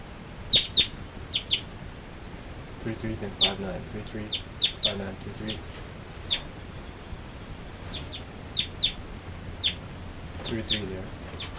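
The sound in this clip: Two birds call from perch to perch with short, high chirps in quick clusters, separated by brief pauses. A steady low background and faint voice-like sounds sit underneath.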